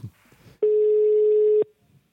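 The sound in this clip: Ringing tone on an outgoing phone call: one long, steady mid-pitched tone of about a second, cutting in sharply after a few faint low sounds and stopping abruptly into near silence.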